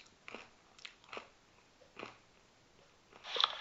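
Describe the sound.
A person chews while eating, with a few faint, crunchy bites spread unevenly through a quiet background. No one talks.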